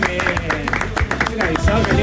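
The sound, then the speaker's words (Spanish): Audience applause welcoming a band, loud irregular claps rising out of a crowd, with voices talking over the clapping. “¿Cómo están, muchachos? Bienvenidos, fuertes aplausos.”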